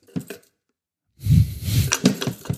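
A wooden box with several things inside is shaken, giving a short rattle, a pause, then a longer burst of knocking, clinking and rattling.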